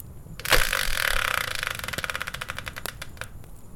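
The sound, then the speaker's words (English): A Wheel of Fortune style prize spinner whirls in a fairly faint, rapid rattle of clicks that gradually slows to sparse, separate ticks. “let's bring in the Wheel of Fortune style spinner and find out what today's subject will be”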